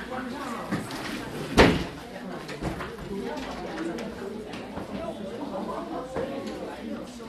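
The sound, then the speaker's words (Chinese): A door is shut in a church Sunday-school room, giving one sharp thud amid ongoing chatter and voices of people gathered there. “那个师母把门帮我们关上吧。”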